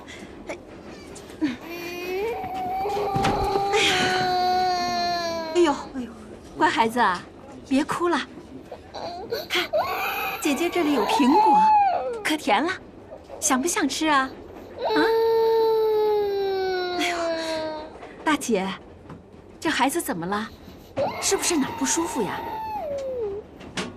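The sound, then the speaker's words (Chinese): A baby cries in several wailing bouts aboard a passenger train, the child unwell and refusing food, with high, wavering sobs rising and falling while adults talk nearby. “乖孩子啊，别哭了”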